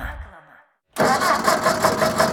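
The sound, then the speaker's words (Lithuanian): A car engine starts abruptly after a brief silence, then runs loud and rough with a steady pulsing rumble. A quieter sound fades out before the break. “Sugedo jūsų automobilis ar motociklas?”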